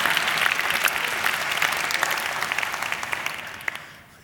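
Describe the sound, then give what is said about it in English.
Audience applause welcoming back students from a semester abroad at a campus gathering. The clapping is brisk and full, then thins out and fades toward the end. “I also want to give a special welcome back to any student that was on a semester abroad someplace. Give them a hand.”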